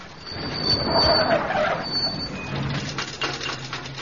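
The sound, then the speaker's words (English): Engine noise from a 23-and-a-half-year-old van whose big end is failing: a rough, grinding mechanical drone with a thin whine above it, heard alone without talk. “Oh, Lord. Sounds like the big end's gone.”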